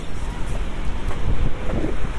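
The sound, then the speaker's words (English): Forceful sea waves beside a long pier: a continuous loud roar of surf with a deep low rumble, mixed with heavy wind buffeting, steady throughout without distinct separate breaks. “The sea is beautiful always, and today quite forceful.”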